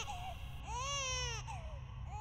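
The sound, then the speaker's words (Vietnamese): Newborn babies cry in faint, thin wails: one long, arching cry fills the middle, with shorter cries before and after it over a low, steady rumble. “Tiếng khóc của những đứa trẻ sơ sinh cứ như vậy vang lên rõ mồn một trong tâm trí của Châu.”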